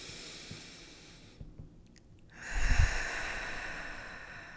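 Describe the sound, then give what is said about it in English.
A deep breath is drawn in through the nose during a guided meditation. A soft airy hiss swells after a brief near-silence and holds steadily to the end. “Big deep breath in.”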